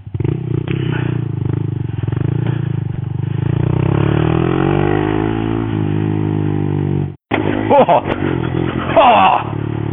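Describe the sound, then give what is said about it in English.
Small off-road-capable motorcycle engine while riding, top speed about 85 km/h, holding a steady loud drone with audible harmonics; it cuts out briefly near the end, then returns rougher and more uneven. “Oh, this is a great little bike. Now, with a top speed of 85 k's pinned, I don't know if this would be a very good bike for commuting.”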